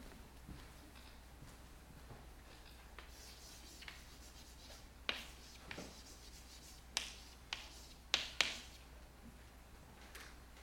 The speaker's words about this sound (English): Jean Jaurès, let me write his name.